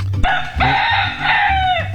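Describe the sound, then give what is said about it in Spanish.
A rooster crows: one loud, strained call with a brief broken start, then a long held tone that falls slightly at the end, over a low intermittent hum. “Ese es mala, estamos hablando de gallos, ¿eh? Vuelve otra vez, a ver, gallito. Ese es el gallito malatobo de Metrópolis, su canto picoteando los primeros rayos del sol en esta mañana”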